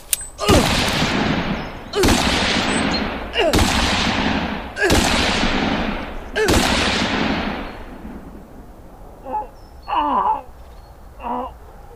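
Five loud gunshots from a concealed-carry handgun at a deer camp, spaced about one and a half seconds apart, each with a long fading tail, followed by a few short moaning vocal sounds.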